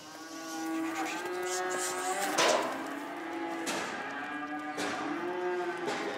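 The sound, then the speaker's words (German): Young cattle moo as farm workers drive them onto a transport trailer. Several drawn-out, overlapping calls sound over steady background noise, broken by a few sharp knocks. “Heute hilft sie zum Beispiel ihren Mitarbeitern dabei, Jungtiere auf einen Transporthänger zu treiben.”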